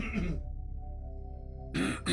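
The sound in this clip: Someone clears their throat with a low, rasping, drawn-out rumble lasting over a second, set between brief bits of talk.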